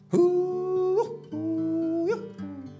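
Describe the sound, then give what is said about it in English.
A human voice imitates coyotes howling and yipping: two long sustained hoots, each ending in an upward yelp, then a shorter falling call. “all that's left now of the old days are them damned old coyotes and me. And they go,”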